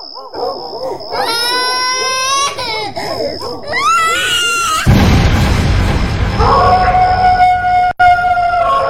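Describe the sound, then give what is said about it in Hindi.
A child cries in high, wavering wails through the first half, then a loud burst of noise and sustained, siren-like tones take over. “तभी राजवीर को किसी बच्चे के रोने की आवाज सुनाई दी।”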